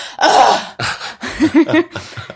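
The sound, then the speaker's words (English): A person imitates exaggerated, loud breathing with a few heavy, breathy huffs, then breaks into short bursts of laughter. “And I was like, all I did was breathe.”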